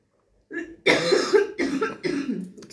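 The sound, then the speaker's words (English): A few harsh, chesty coughs from a person with a cold, coming in quick bursts one after another, loud and with no talk between them. “excuse us, we both have a bit of a cough with all this cold we've been facing. So just excuse the coughs.”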